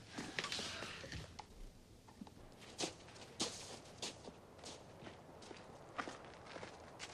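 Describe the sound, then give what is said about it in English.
Footsteps of two men stepping up to a back door: a few soft, irregular steps, faint and heard alone with no talk. “Harry and Marv step up to the back door.”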